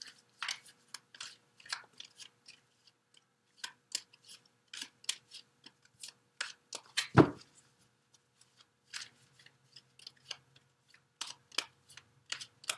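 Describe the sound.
A tarot card is drawn from the deck with many crisp, papery snaps and flicks in an uneven rhythm, and one louder thump near the middle.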